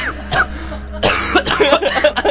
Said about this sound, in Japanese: むせてるけど大丈夫。